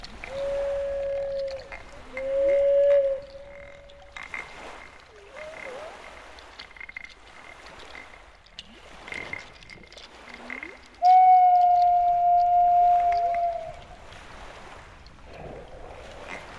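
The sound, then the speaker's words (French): Whale song made of a few long, sustained tonal moans with short upward and downward sweeps, separated by low croaking grunts and soft wash. Some calls are loud and clear while others stay faint. “Toute cette conversation venait de se produire dans une merveilleuse mélodie de chant de baleine et mon cœur était joyeux de communiquer avec doux sons.”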